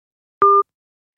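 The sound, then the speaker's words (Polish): A telephone tone after a call is cut off: a single short, loud electronic beep of two blended steady pitches, lasting about a fifth of a second, surrounded by silence. “Rozmowa z Ryszardem Czarneckim została przerwana.”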